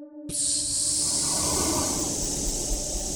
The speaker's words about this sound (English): a hiss emits as a shadowy fog begins to pour out of its joints and begins to fill your surroundings